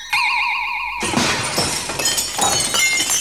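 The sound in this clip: Window glass shatters in one loud crash about a second in, followed by scattered tinkling fragments. Before the crash, a wavering, warbling whistle tone plays alone.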